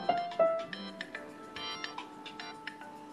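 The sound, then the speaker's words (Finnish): A phone ringtone signals an incoming call with a few short, bright electronic tones in a quick melodic pattern. It sounds fairly faint, and no voices are present. “Nyt hänen odottamansa puhelu tulee.”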